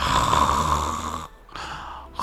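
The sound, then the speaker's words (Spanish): A person snoring: a long, loud, raspy breath, a brief pause, then another rough snore begins. “Mientras usted estaba roncando.”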